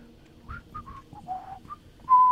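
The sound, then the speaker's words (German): A person whistles a tune while walking through a dark forest: a few short, faint whistled notes at varied pitches follow one another in a loose melody, ending on a louder held note. “Ich pfeife mal lieber ein Lied. Es ist so dunkel hier.”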